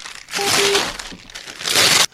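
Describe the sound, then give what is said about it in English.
Paper loan documents are ripped into pieces in two rough bursts of tearing and crinkling, separated by a brief pause. “I'm gonna rip them up. I'm ripping them into pieces.”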